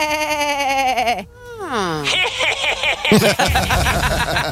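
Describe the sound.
Goat bleating: a few loud, quavering, nasal cries, with a sharp downward slide in the middle and choppier bleats toward the end.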